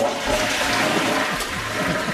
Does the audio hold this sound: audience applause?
no